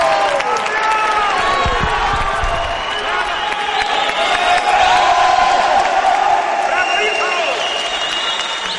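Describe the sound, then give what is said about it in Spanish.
Wedding guests applaud from church pews in a film scene, with dense clapping mixed with cheering and whoops that stay loud throughout. “Miren a los invitados sonriendo que aplauden en sus bancos.”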